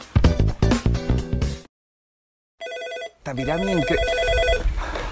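An office telephone ringing on an incoming call: after a burst of music and a silent gap, a bright electronic ring sounds, followed by warbling, wavering electronic tones.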